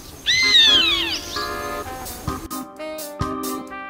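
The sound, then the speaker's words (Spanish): A chimango caracara calls while hunting pigeons: shrill, descending cries open loudly, followed by several shorter harmonic calls of steady pitch, with other bird sounds mixed in. “Y lo que podemos escuchar atrás son un tiuque que las está cazando.”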